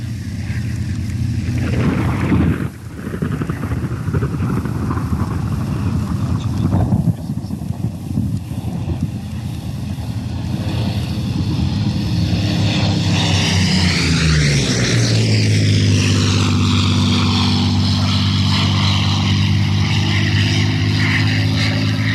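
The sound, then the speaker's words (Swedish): Spitfire Mk VC propeller aircraft flying over, a loud, steady engine drone with a harsh propeller roar that swells and then falls in pitch as it passes, trailing off into a lower hum. “Nu ska vi lyssna till några överflygningar med Spitfire 5C.”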